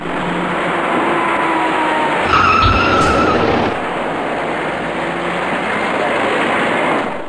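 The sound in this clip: Tyres squeal briefly as a fast silver passenger car, travelling north to south, skids into a cyclist stopped in the innermost lane. The squeal rises above steady traffic and road noise midway, then fades back into it.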